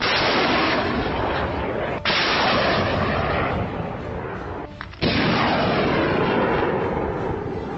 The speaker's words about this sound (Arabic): سوف يتم الآن إطلاق سلاح صواريخ القادسة على جماعات العدو السعودي ومستهدفوه في غربي السديس.